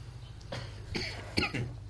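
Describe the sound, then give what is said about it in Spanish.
A person coughs and clears their throat in a few short, rough bursts spread across the moment, the last ones loudest, over a low background hum with no speech. “Tose y carraspera.”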